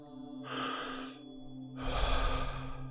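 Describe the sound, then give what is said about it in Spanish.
A deep inhale and a longer exhale from a Wim Hof method breathing exercise, two soft, airy breaths over a steady held tone underneath, with the second breath slightly louder. “Inhalo profundo y dejo salir.”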